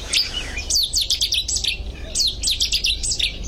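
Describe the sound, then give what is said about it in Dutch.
A Cetti's warbler sings in a marsh: two loud, abrupt bursts of rapid, high-pitched notes, each lasting under a second, with fainter bird calls at the start and a steady low rumble underneath. “Dan had je de soort van de maand gehad, denk ik. Nu is het een vrij normale soort in moerassen, de Setisanger.”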